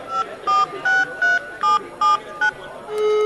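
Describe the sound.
Telephone keypad tones as a number is dialed for a call: seven short, evenly spaced beeps of varying pitch, then a steady lower tone begins at the end.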